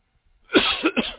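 Three quick coughs from a tickle in the throat, breaking out of silence in a rough, raspy burst; the first is the longest, followed by two shorter, sharper hacks.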